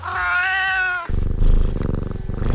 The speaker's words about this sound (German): eine schnurrende Katze. Mein Lieblingsgeräusch in der ganzen Welt.